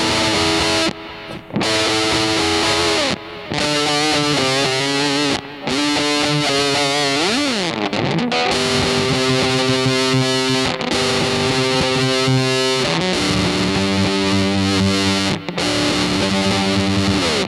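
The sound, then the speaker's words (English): A Tysco Fuzz guitar pedal with an octave effect drives an electric guitar into thick, buzzing distortion, playing sustained notes and short phrases with a brief gliding bend midway and a few quick pauses between lines. “So, that's the Tysco Fuzz. Nice. So, sounds great.”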